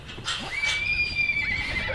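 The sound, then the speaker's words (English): A wild Brumby horse on a cattle station in Western Australia neighs, a long, high, wavering whinny held for over a second above steady background noise. “Joe Hughes is attempting to set a world record, training up to 70 wild Brumbies in just 7 days”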